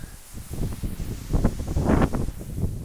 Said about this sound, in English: there's this tree. It's making some nice noise with the wind blowing through it.